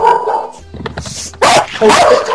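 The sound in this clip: A dog barks a few times, sharp and loud, in quick succession, with no talk over it.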